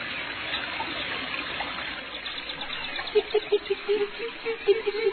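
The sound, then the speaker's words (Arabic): Faint trickling water of a pond where small birds land to rest and drink: a soft, steady dribble, with a short run of light pulsing sounds in the second half. “هبطت العصافير قرب البركة لكي ترتاح وتشرب من الماء قليلا”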